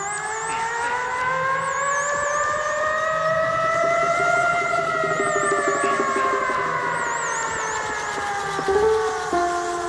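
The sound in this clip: A loud wailing siren whose tone slowly rises over about four seconds and then gradually falls, while a thinner, higher warbling tone comes and goes above it throughout.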